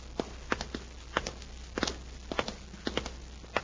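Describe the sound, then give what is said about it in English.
Footsteps walking down a hotel hallway after leaving an elevator. A steady series of firm, even steps, fairly faint and heard alone over a low hum. “They step out of the elevator and walk down the hall.”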